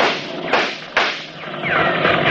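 Gunfire in a radio drama shootout: two sharp, sudden gunshot bursts, the second slightly stronger, standing out from a steady, noisy background.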